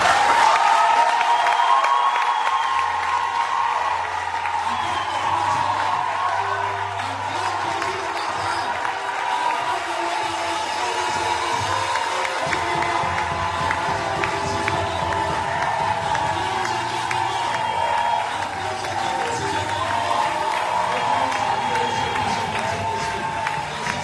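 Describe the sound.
Church audience acclaiming and cheering for God during a service: a sustained, lively crowd noise of cheering voices and scattered clapping that runs on steadily for the whole stretch without letting up.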